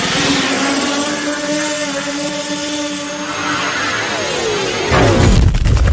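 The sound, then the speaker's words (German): A sound effect of a shot fired: a long, loud roaring whoosh that ends in a sudden, harsher burst. “Oha, jetzt hast du voll auf den Trainingsplatz des HSV geschossen”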